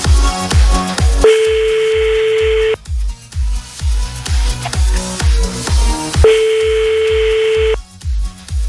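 An unanswered phone call: two long ringback tones sound a few seconds apart over a loud, pulsing music beat.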